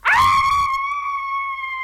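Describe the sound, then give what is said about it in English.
A comedic burlesque scream sound effect: a single high, shrill voice-like shriek that sweeps quickly up at the start. It then holds a steady pitch for almost two seconds, slowly softening. “What is a burlesque scream? I don't know. We'll find out. Let's find out.”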